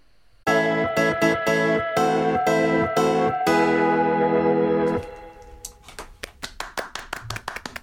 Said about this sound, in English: It's nice to be clapped in a theatre.